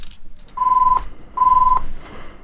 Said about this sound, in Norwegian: Og da ringer det gitt.